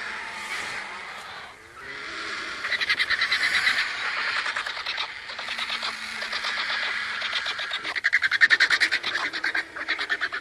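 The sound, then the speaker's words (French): Griffon vultures squabble while feeding on a carcass: a dense mass of harsh, raspy hisses and rattling calls overlap almost without pause, growing louder in places as the birds fight over the soft parts. “On vient d'entendre l'enregistrement d'une curée. C'est le moment où les vautours vont se nourrir d'un cadavre. Une curée peut rassembler des dizaines de vautours fauves qui vont se disputer les parties molles”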